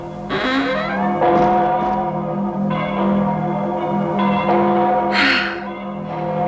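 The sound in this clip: Church bells ring out in London in winter, with overlapping sustained tones and a layered, resonant peal that stays loud and continuous throughout.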